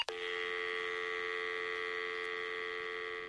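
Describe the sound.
A steady telephone tone when a call is placed: one continuous, even electronic drone that holds for about three seconds after a faint click, with no voices.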